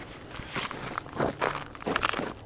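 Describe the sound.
Footsteps walking up to the Cronquist House in Red Deer, a few crunchy, uneven steps at a moderate level, alone without talk.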